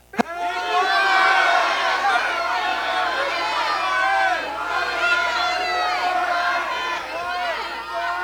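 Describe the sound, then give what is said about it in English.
A church audience shouts together on cue, starting with a sharp onset and then holding a loud, sustained mass of many voices for several seconds. “you got to shout long enough for our online audience to hear it. So one, two, three.”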